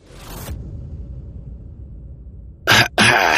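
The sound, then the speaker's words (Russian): A man coughs twice in quick succession. The two loud, harsh bursts come after a long stretch of low, steady background noise. “закашлялся и резко принял сидячее положение”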